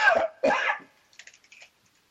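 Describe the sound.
Two harsh, loud coughs in quick succession, followed by a few faint, scattered clicks.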